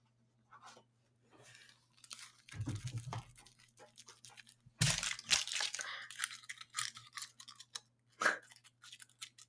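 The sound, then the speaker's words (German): Someone eats a Kinder Riegel chocolate bar, with a crackling rustle of the wrapper followed by many crisp bursts of crunching and chewing, loud and uneven, separated by short pauses. “ich möchte ein Kinderriegel essen”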